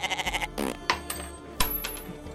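A goat bleats in a quavering, pulsing call, followed by a few sharp knocks and rustling sounds at moderate loudness.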